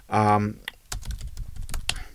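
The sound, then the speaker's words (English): Typing a search on a computer keyboard: a brisk, uneven run of key clicks and taps after a brief voice at the start. “Brian Lilly Pedagogy is such a weird thing to type into Google.”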